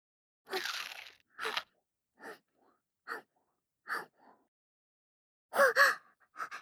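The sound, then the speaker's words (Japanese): Raw daikon radish and carrot crunch under crisp bites, a series of sharp, separate crunches with short pauses between them. The last ones come in quick pairs, fairly quiet and with no talk. “まだシャキシャキです。次は大根を。人参も食べてみます。”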